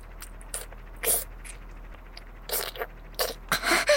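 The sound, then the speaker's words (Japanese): Biting and crunching into an ice pop on a stick, a series of short, crisp crunches spaced irregularly against near silence, coming faster and more clustered toward the end. “ごはん、食っておこうね。もう、棒状のアイス、食べてるだけよ。”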